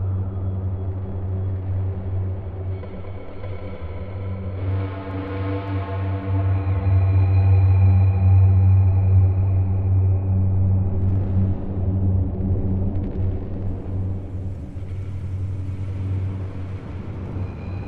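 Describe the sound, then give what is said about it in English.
A car driving down an empty highway: a continuous low engine and road rumble lasting the whole stretch, swelling somewhat in the middle and then easing, with no talk. “The dark man drives down an empty highway.”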